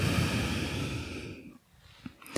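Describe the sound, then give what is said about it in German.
Breathing in and out during a guided meditation: a long, airy, breathy rush that gradually fades after about a second and a half, followed by near quiet and a few faint soft sounds. “Und atme nochmal ein und aus.”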